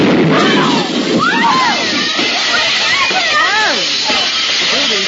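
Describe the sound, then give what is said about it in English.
Loud, steady hissing from a bursting boiler, a radio drama sound effect, runs throughout while excited voices call out over it. “Harry, what's going on? It's the boiler. If we don't get out of here, it's...”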